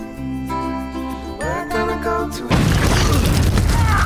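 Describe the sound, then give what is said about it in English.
A landmine explosion in a film scene on a beach: a sudden loud blast cuts in after a stretch of tonal music and roars on steadily to the end. “Now, she's running on the beach, and all of a sudden, she just explodes. Did she step on a landmine? That's exactly what she did.”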